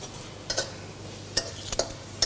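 Spatula scraping and clinking in a pan as sugar and red and green chilies are stir-fried into a holy basil dish, a few faint, sharp metallic strikes spaced irregularly over a quiet background.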